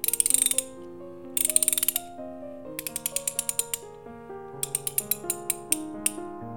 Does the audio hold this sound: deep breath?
no